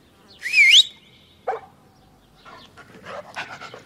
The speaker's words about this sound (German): Und was ist das? Ein Hund.